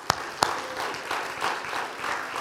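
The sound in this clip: Audience applause at a church Easter gathering, a burst of scattered clapping with a couple of sharp claps at the start, then a steady, moderately loud patter that continues evenly to the end.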